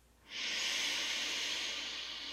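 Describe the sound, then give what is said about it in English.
A slow breath drawn in through the nose, a soft, airy hiss that swells quickly and then holds steady for about two seconds, with no talk. “A lot of us breathe up in our chest, so just dropping it a little bit lower for this. So then in again through the nose.”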